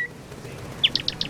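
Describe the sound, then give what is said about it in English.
Four quick, high-pitched bird chirps ring out in rapid succession as a sound effect for a social media post being sent, bright and brief over a faint hiss. “When that little bird and the wings flap, that's the sound of your Twitter going out, and you can't get it back.”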